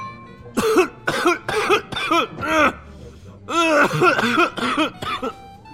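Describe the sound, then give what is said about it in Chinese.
Loud, violent coughing erupts from someone at a nearby table, a long run of harsh, throaty coughs in two bouts split by a short pause, with groaning, voiced edges on each burst. “路过的桌子边上有人突然爆发出了剧烈的咳嗽声，这回的咳嗽声如此响亮，让人根本无法忽视。”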